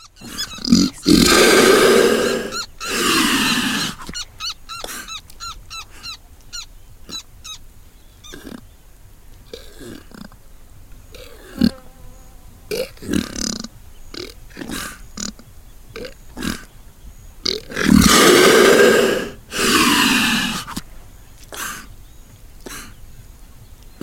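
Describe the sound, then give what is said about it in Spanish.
Breathing of a leatherback sea turtle on Hatter beach, Guyana: two loud, harsh, rasping breath bursts, each in two parts, separated by a long quieter stretch of faint clicks and rustles. “Respiración. Aliento de una tortuga marina. Especie. Laúd. Grabación en la playa Hatter, Guyana.”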